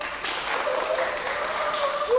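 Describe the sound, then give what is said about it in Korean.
Applause at a company welcome for a new humanoid robot intern: fairly soft, steady clapping at an even level, with a few faint tonal rings. “큰 박수 부탁드립니다”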